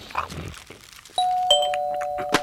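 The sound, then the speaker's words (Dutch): A doorbell rings with a clear two-tone ding-dong chime: a bright first note, then a second overlapping tone that rings out and holds steady, with some low, muffled noise before the chime. “Ik word gek van die bel de hele tijd.”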